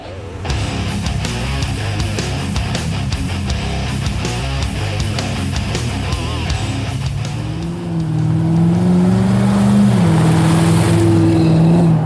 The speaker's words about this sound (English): you find yourself driving home. It's a little hard to see out of your windshield. It's been pouring down for a little bit.